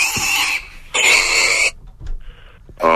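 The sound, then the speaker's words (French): A person imitates a sow's oink with harsh, noisy snorting grunts. Two long bursts come first, separated by quieter breathy sounds, and a third begins right at the end. “Et j'aimerais bien que tu fasses le bruit de la truie. Allez, vas-y, fais le bruit de la truie.”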